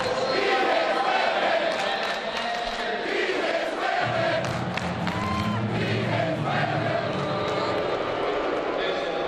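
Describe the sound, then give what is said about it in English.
A stadium crowd chants in the stands at a college football bowl game between Oklahoma and Auburn. Thousands of voices merge into a loud, continuous roar that stays dense and steady throughout, with a rhythmic chant running through the noise. “Okay, that is the sound of people in the stands chanting,”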